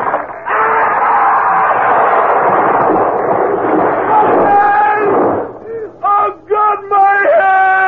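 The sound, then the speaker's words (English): A carriage tips over and crashes on a curve in the road: a loud, sustained rumbling crash lasts about five seconds, then breaks into a few short, harmonic cries. “Look out! Look out! Listen! Hold on! Carriage is tipping!”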